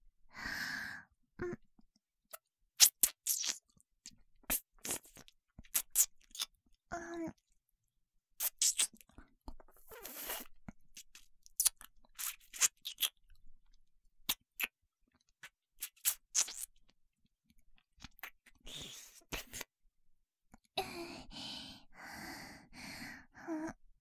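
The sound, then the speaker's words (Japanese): Wet ear-licking mouth sounds come as many soft smacks and slurps in irregular clusters, mixed with light breaths and gasps, some stretches quiet and the last few seconds denser. “じゃあ、こちらのお耳も舐めさせていただきます。”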